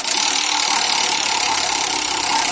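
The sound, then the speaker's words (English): A prize wheel being spun, giving a dense, rapid, continuous clattering tick that stays loud and even throughout with no pause. “why don't we ask Bradford to please spin that wheel? Spin that wheel, Bradford.”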